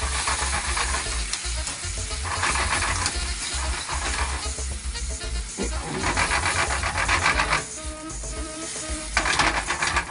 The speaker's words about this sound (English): my tomato paste. And it's probably about a tablespoon. Start to splatter it. And then get that. And then we're going to add in that. Our tomatoes.